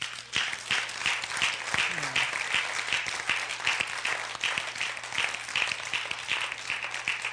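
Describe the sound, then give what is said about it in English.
An audience claps their hands during worship, many overlapping sharp claps forming dense, steady applause that keeps an even, lively level throughout the whole stretch. “Can I get a praiser just to clap your hands?”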